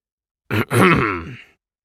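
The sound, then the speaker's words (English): A deep, scratchy voice clears its throat, performed for an AI avatar character. A short catch is followed by a longer, rasping, gravelly grunt that fades out, heard alone. “A deep, scratchy voice intentionally cleared its virtual throat.”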